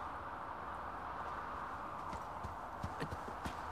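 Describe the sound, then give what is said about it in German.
Hooves of a small pony clip-clopping in fog, faint over a steady low rumble and hiss, with a few distinct hoofbeats standing out toward the end. “Ein kleiner Hobbit. Auf einem kleinen Pony.”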